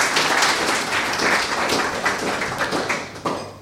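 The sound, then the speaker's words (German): Applause fills the room after a reading from a German translation of a poetry collection: dense, steady clapping from an audience that holds at an even level and thins toward the end, with no voices over it. “Applaus”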